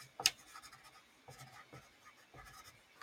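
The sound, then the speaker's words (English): Handwriting with a pen or pencil, heard as a few faint, irregular scratching strokes on paper, soft and alone. “I'm writing this down because I'm going to listen to it.”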